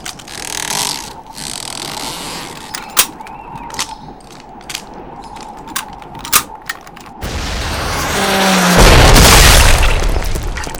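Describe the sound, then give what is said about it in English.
Rockets fired from a rack on the back of a flat-top truck are heard as a few mechanical clicks and clanks, then a sudden roaring surge of noise that builds loudly to the end. “They had hit a moose with one of the rack of rockets on the back of a flat-top truck.”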